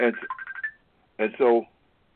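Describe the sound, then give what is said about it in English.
A phone ringtone for an incoming call chimes in a few quick pulsing bursts, then stops and a voice briefly talks. “And so, I got another phone call.”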